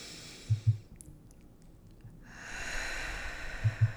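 A deep breath drawn in and let out during a guided meditation: a soft airy hiss, a quiet pause, then a longer, fuller breath sound, with a few faint low thumps.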